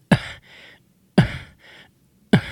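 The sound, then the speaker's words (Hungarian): Three short groans made by shutting the vocal folds and then suddenly releasing them. Each opens with an abrupt glottal burst that fades into a softer breathy tail, separated by brief silences. “A hangszalagokat össze lehet zárni teljesen, úgy, hogy ne jöjjön ki a levegő, és hirtelen föl lehet nyitni. Ez történik például nyögés esetében, tessék figyelni, most nyögni fogok.”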